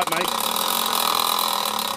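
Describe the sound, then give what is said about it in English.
A spinning prize wheel in a game: a rapid, steady stream of ratcheting clicks that continues throughout, with talk over it. “Spin the wheel”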